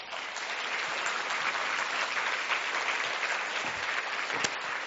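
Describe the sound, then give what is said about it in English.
An audience applauds as two people are invited up to join the host: many hands clapping in a dense, steady patter that stays even and sustained for about five seconds. “Give them a hand.”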